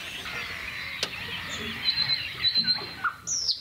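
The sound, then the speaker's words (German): Nightingale singing at dawn among other birds in a quiet natural setting without traffic: a series of short, high, clear whistled notes and chirps, moderately faint over a soft background hiss. “Da ist die Nachtigall.”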